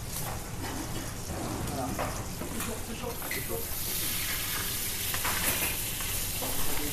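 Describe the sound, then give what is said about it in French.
Steady sizzling of meat cooking gently in a pan at low temperature, around 70 degrees, a continuous bright crackle and hiss that holds an even level from start to finish. “Et là, après, on le cuit à basse température, à, 70 degrés.”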